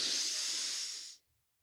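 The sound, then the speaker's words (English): A single deep breath taken during a slow breathing exercise: one steady, airy hiss lasting just over a second, then cut off into silence. “let's take a deep in breath way into the belly.”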